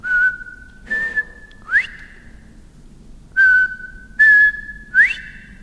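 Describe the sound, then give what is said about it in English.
Whistled call of a lone male quail from a weedy ditch along an unkempt fence line: two phrases of three clear notes, the first two level and the last sweeping sharply upward, loud over a quiet background. “it's hard to find quail. You know, to hear that whistle”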